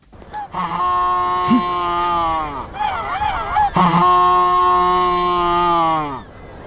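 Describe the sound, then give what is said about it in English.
Humboldt penguins bray loudly in two long, honking, donkey-like calls separated by a shorter warbling stretch, the strong nasal tones holding steady before tailing off. “There you go, the sound of some Humboldt penguins”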